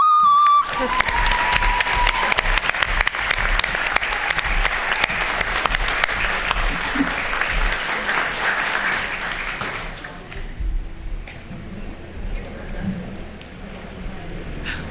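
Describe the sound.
Applause from a crowd celebrating an election win: dense, loud clapping that holds steady for about ten seconds, then thins out into scattered claps for the final stretch.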